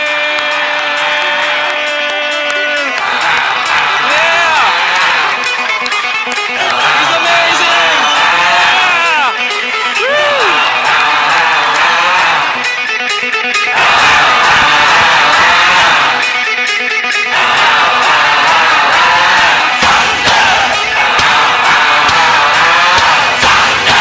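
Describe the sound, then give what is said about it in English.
A crowd cheers and whoops continuously over loud music to welcome King Herod, the excited shouting holding steady throughout. “Okay, cue the music. Let's stand. Put your hands together and welcome the King, the amazing one, King Herod.”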